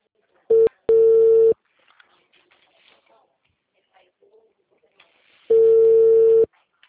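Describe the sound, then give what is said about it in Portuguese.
Telephone call tones while dialing someone: a steady, low buzzing tone comes first as a brief blip and then as a longer tone, followed by a long stretch of near silence and one more sustained tone. “Tô tentando ligar pra ele aqui agora.”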